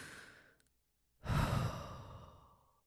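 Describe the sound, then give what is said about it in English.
One slow, deep breath is drawn in and released in a long airy exhale that trails off gradually, shown off as a breathing demonstration after a brief faint noise and a moment of near silence, with no talking. “I don't know why I had to demonstrate breathing.”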